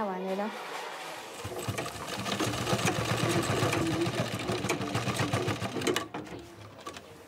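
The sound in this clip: A sewing machine stitches uniforms in a tailor's workshop, a steady mechanical whir and rapid chatter that swells in after a brief voice at the start and then runs loudly throughout.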